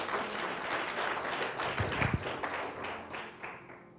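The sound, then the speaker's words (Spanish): Clapping from a church audience applauding during a Spanish-language sermon: a dense, steady wash of many hands, with a few sharper claps near the middle, easing slightly toward the end, no voices. “Dale un aplauso, Señor.”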